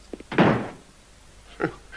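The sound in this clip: A door slams shut with one heavy, loud thud, then a shorter, softer thump about a second later against a low background hum.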